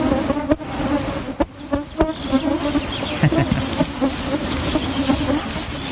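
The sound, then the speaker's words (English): A cloud of biting midges in Shetland produces a dense, continuous insect buzz and whine, steady and moderately loud throughout with no voices. “Is that a midge by any chance? It is, the cloud of dreaded midges biting.”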